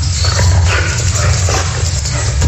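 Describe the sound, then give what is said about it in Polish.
Two dogs play together, yipping and whimpering in loud, dense bursts over a constant low rumble, with no talk. “To, co państwo słyszą, to zabawa Tosi i Bubu.”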